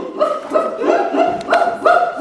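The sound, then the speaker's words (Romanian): Barking from a dog named Sasha comes as a quick, evenly spaced series of fairly high, yappy barks. “Sasha e cel mai minunat câine din lume.”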